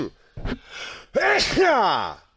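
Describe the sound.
A person sneezes, an abrupt, loud burst with a strained, voiced quality, followed by a brief vocal sound.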